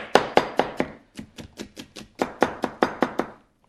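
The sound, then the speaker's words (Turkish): Knife chopping an onion in many crisp, evenly spaced cuts: a few loud strokes, a softer, quicker run, then another loud, steady series, heard alone without talk. “soğanımı doğramak istiyorum. Bir saniye, hatta şuradan alarak daha konforlu olacak benim için. Soğanımızı doğruyoruz.”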